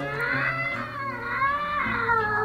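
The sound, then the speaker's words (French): A cat yowls horribly, one long, loud, drawn-out caterwaul whose wavering pitch rises and falls in a few swells, heard alone. “Et alors là, de nouveau, l'horrible miaulement de la bête du bon Dieu.”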